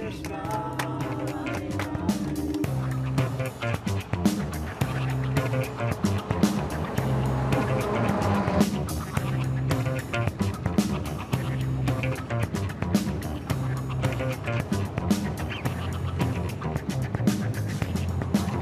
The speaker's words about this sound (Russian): Автобус со студентами продолжает движение.